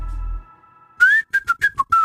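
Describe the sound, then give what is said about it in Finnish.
A person whistles into a microphone: after a brief low hum fades out, a quick run of short, sharp whistled notes follows, clear and fairly loud. “Piti nyt oikein kokeilla, ei uskaltanut vielä niin kova tuohon mikkiin, ettei se ala särkemään, mutta kyllähän se sieltä tulee vihellystarpeen vaatiessa.”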